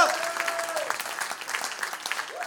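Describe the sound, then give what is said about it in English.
A church audience claps hands during a worship service, producing a quiet, uneven patter of many claps. Voices are heard over the clapping. “Come on, clap your hands, all your people.”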